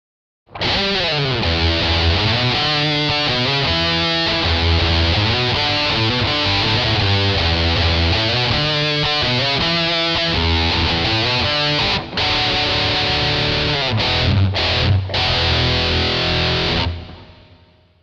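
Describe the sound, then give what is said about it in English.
Electric guitar through a Boss MT-2 Metal Zone distortion pedal plays thick, heavily saturated sustained chords with a brief break partway through. Near the end come several short stabbed chords before the sound cuts off. “MT2 Metal Zone.”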